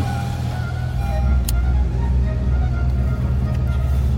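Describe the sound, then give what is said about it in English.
Steady roar of a car driving with the window down, with loud, constant wind and road rumble and no voices. “Okay, see, it's a lot louder when the window's down.”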